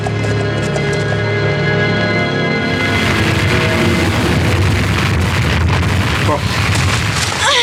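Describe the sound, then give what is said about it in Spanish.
Rapid galloping hoofbeats of a horse carrying a Mongol warrior away at full speed, a radio drama sound effect: many loud, dense hoof strikes that run steadily through the whole clip. “el guerrero mongol monta el corcel y se aleja a todo galope rumbo al escondite del extraño Doctor Muerte.”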